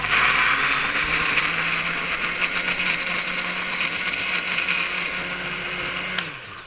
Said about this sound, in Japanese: ミキサーに人参、玉ねぎ、マスタード、ニンニクのすりおろし、砂糖、塩コショウ、ワインビネガー、マヨネーズを入れて全体に回します。